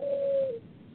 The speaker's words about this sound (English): Well, you have a lot of birds in your house? We, right, our neighbors keep doves.